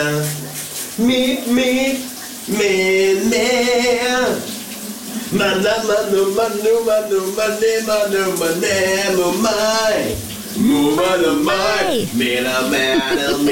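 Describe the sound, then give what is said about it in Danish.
A man sings in the shower at home, his voice carrying a bright, wavering melody in sustained phrases over a constant hiss of running water. “skubber os ud i vores onsdag morgen med lidt skøn sang fra bruseren derhjemme”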